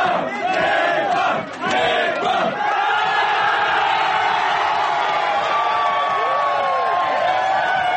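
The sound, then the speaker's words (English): A pub crowd in Yokohama roars and cheers right after Japan beat Scotland at the 2019 Rugby World Cup, a dense, loud wall of shouting and whooping that holds steady for the whole stretch. “we're in a pub in Yokohama where Japan have just beaten Scotland”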